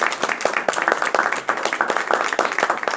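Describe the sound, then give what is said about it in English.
An audience applauds: dense, steady clapping from many hands, loud and continuous throughout with no voices rising above it. “I think you all deserve a round of applause.”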